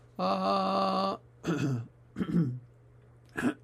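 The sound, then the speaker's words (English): Throat clearing by a person showing a vocal vibration technique: a sustained, steady voiced tone comes first, then a few short, raspy, guttural clears with brief pauses between them. “I need to clear my throat.”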